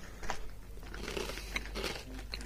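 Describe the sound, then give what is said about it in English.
Biting and chewing into a Mars bar, a caramel chocolate bar with a less gooey centre, gives faint, soft, crinkly crunches and a few uneven bites against quiet background hiss. “you'll have to bite down on those and let me know if there is a taste difference at all. It looked like a gooey centre. Mm-hmm. On that first one. Gooey caramel. Okay, so he's going for the second one now.”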